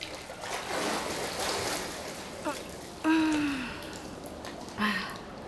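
Water splashing and running in a Japanese public bathhouse: a continuous wash of watery noise, broken by a few brief vocal sounds such as sighs or gasps.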